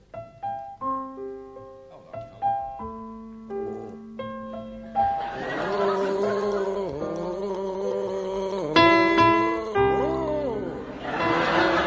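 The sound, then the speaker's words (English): A man gargles the melody of Brahms' Lullaby, wet bubbling pitched tones tracing the tune after a few clean, spaced notes open the piece. “Let's start with you, Willie Rushton, now. Will you gargle Brahms' Lullaby?”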